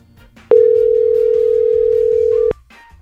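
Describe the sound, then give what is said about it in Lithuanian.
A telephone call ringing: one steady, loud electronic tone is held for about two seconds, starting and stopping abruptly over faint background noise. “Štai kur telefonas Gražinos.”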